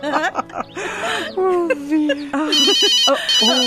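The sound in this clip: A telephone ringtone sounds in bright, repeating electronic tones, loud and insistent, with voices overlapping it at times.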